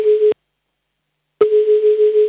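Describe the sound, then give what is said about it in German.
Telephone connecting tone on a call being put through to a caller in Vienna during a children's radio show: a steady mid-pitched beep that sounds for a moment, stops for about a second, then sounds again and holds, loud and clear with no talk. “So, nächster Anruf ist dran, der geht nach Wien.”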